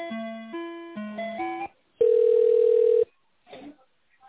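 Telephone tones play while a call is transferred: a quick stepped sequence of electronic notes, then a single loud steady beep lasting about a second, followed by a faint brief blip.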